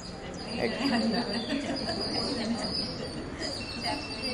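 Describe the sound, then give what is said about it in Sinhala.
Various birds calling in a faint, continuous chorus of chirps and thin tweets, with a steady high insect-like trill running underneath. “එක එක ශබ්ද එනවා නේද? එක එක කුරුල්ලන්ගේ.”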